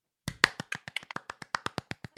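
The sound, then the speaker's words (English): A hand claps many times in quick succession: sharp, crisp claps in an even, steady rhythm, heard alone against silence, with the second clap a little louder than the rest. “One clap,”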